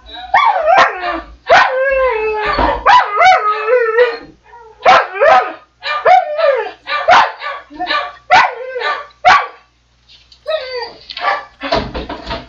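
A dog howling and yipping: many drawn-out, wavering wails mixed with short, sharp cries, loud and irregular, separated by brief gaps.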